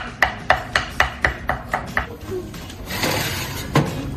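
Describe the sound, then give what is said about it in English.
A knife chops food into strips on a cutting board, eight sharp, evenly spaced taps in a brisk steady rhythm, then softer scraping and rustling as the cutting stops. “We're just gonna slice these into nice little strips.”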